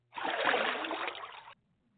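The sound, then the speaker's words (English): A swimming splash sound effect plays as one burst of rushing, splashing water that lasts over a second and then cuts off abruptly into near silence. “That sounds like a swim. And that's what the segment was, folks. Sal swam.”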